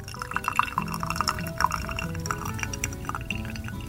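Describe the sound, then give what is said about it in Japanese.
Hot water dripping through a coffee dripper as the last 100 ml drains, a quiet, irregular patter of small drips over a soft liquid trickle. “で、今、えっ、ー、と、ドリッパーから最後の 100ml のお湯がどんどん落ちていっています。”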